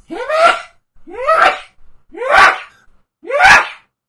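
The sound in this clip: A person sneezes four times in steady succession, partly exaggerated as a joke. Each sneeze is a rising, voiced intake that breaks into a sharp, loud burst, with short silences between them.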